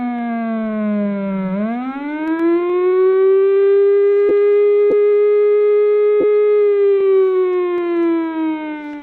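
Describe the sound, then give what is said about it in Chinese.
An air raid warning siren sounds for a town resilience civil defense drill in Hualien. The loud, sustained wail dips briefly, swells back to a steady high tone, and sags slightly near the end. “现在大家听到的就是防空演习的警报声。”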